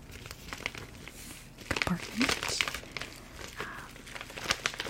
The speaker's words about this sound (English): It's like their signature pink bags, so I have a ton of these, and I use them for traveling. They come with like a little zip.